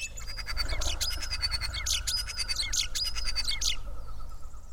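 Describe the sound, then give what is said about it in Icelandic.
A mix of thrushes and crows calling: repeated high, clear whistled notes and harsh, scratchy bursts recur over a low, steady rumble. “Og loks blanda af þröstum og krákum.”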